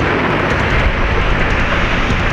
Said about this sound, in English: I try to yell my friend's name, but the explosion blots out my scream. Windows shatter 5 miles away from the concussive force.